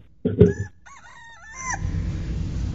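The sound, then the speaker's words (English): A rooster crows once: a loud, rough opening burst, then a drawn-out, wavering, nasal call that bends in pitch before fading into steady background noise. “They are still crowing, my friends. Still crowing.”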